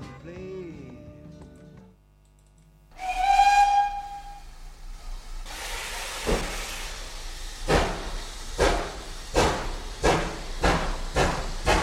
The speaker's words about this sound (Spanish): enseguida voy a subir al tren porque va a pitar su salida.